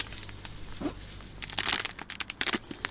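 Crinkling of a one-kilo bag of organic cane sugar being handled, a bag with a small hole leaking sugar. Quiet rustling at first gives way to a denser run of sharp, crackling crunches in the second half.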